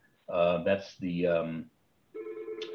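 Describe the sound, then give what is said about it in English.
A mobile phone rings with a bright, melodic electronic ringtone in three bursts, the first two longer and louder, the third a thinner, steadier tone. “I'm not sure why my phone is ringing here.”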